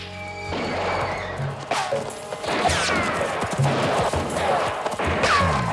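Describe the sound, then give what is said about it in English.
Gunfire as men shoot down from the top of a slope at a gang: a quick run of sharp cracks and crashing bursts, some overlapping, spread irregularly across the stretch. “Garrett and his men watch from the top of the slope. They fire down at Billy's gang.”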